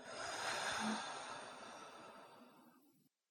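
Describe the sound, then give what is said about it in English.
Slow breathing during a guided breathing exercise, heard as one long, soft, airy breath out through the mouth that gradually fades over about three seconds, with no talk over it. “Breathe in. And out.”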